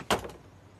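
A door opening as someone walks in without knocking: one sharp clack, then a fainter click just after, then low quiet background.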